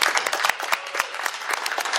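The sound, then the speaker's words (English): Applause for a game winner: brisk, distinct hand claps that overlap in a steady patter for a couple of seconds. “Round of applause.”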